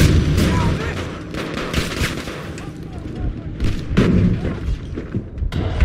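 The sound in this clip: Heavy shotgun blasts and other gunfire from the video game Battlefield V during a Rush match: many loud, booming shots follow one another in quick succession, with thuds and a dense roar of battle throughout.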